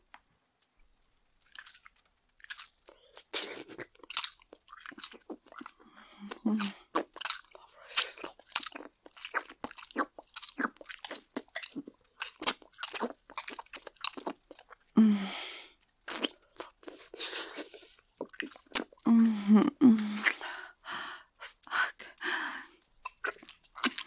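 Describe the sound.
Food is bitten and chewed while being tasted, with many crunchy bites and chews in an irregular rhythm that grow louder toward the end.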